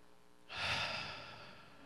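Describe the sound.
A single drawn-in breath taken on cue during a spoken prayer and declaration: a soft, airy inhale that starts abruptly, swells quickly and then slowly tapers off, heard alone without talk.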